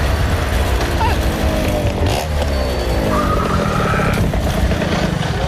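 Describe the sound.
A car engine accelerates as the car arrives, its revs climbing into a loud, continuous rising roar with a rough, mechanical edge.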